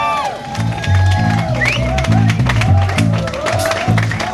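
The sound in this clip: An audience cheers and claps for bassist Marcus Miller at a concert, a loud, dense wash of crowd noise over low, pulsing musical notes.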